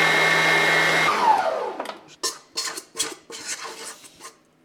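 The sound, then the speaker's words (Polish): Icing for gingerbread cookies is mixed in a bowl: a steady motor whir cuts off with a falling pitch, followed by several sharp clinks and scrapes of a utensil against the bowl. “I mieszam lukier.”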